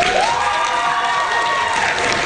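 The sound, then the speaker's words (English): A school board meeting audience cheers, shouts and claps after a motion passes. The crowd noise is loud and continuous throughout. “And you can see the video, a very active audience, a bunch of people standing up celebrating.”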